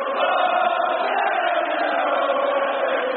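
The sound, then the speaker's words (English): Thousands of youngsters in an audience chant together, a dense, steady roar of massed voices with a narrow, muffled tone that continues unbroken throughout. “Thousands of youngsters in the audience began to chant.”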